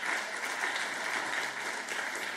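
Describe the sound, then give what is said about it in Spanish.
A church audience applauds as an offering to God, producing a continuous, even roar of many hands clapping that stays faint and steady from start to finish. “Dale una ofrenda de palmas al Dios de la gloria.”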